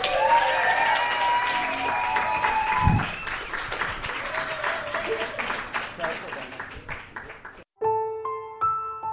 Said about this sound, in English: But please make some noise for Jordan and James of Boosie Fade.